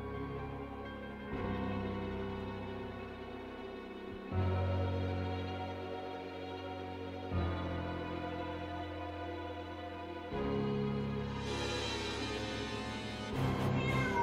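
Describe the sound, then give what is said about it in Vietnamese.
A cat meows in long, drawn-out, wailing cries that follow one another in a slow series, fairly faint and alone. “Lại có tiếng mèo kêu vang lên.”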